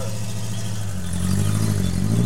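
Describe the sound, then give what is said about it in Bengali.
A car engine starting up beyond a balcony, a steady low rumble mixed with broad noise that grows louder and slightly higher in pitch about halfway through. “Minute খানেকের মধ্যে ব্যালকনির ওপার থেকে গাড়ি start দেওয়ার আওয়াজ পাওয়া যায়।”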